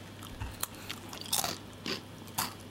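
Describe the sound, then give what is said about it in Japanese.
Crisp crunches of someone biting into a crunchy camembert-flavored snack: several sharp, bright snaps spaced irregularly, with no talk. “お、リッチカマンベールいただきます、”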